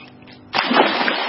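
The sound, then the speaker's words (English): A dog diving into a swimming pool makes one sudden loud splash after a quiet start, followed by a sustained churning wash of water until the end. “Oh, sure, a lot of dogs love water. But Bob's aquatic adventures make you look beneath the surface. This spiral dive is how he gets there.”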